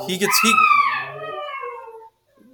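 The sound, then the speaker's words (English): A small dog whines and cries in one long, high-pitched wail that slides downward in pitch and fades after about two seconds, followed by a faint brief yelp. “That was my little dog. She's like screaming.”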